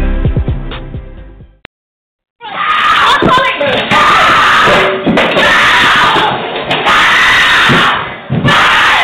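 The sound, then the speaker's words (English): Screaming and shouting from a real recorded domestic abuse attack, with a child witnessing, burst in loud and continuous after a brief musical passage and a moment of silence, sustained almost to the end. “What you heard was an actual recorded incident of my abuser attacking me and my daughter witnessing the attack.”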